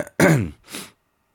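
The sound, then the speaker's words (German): A cough from someone just recovering from an illness: two quick harsh bursts, the first louder and longer, the second weaker, then silence. “Ich huste jedes Mal nach dem Lesen des Datums.”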